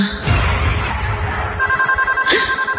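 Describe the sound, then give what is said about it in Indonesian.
A telephone rings in a room: a steady electronic tone starts partway through and pulses in quick, regular repeats, fairly loud. “astaga, ini telepon bikin kaget aja deh ah.”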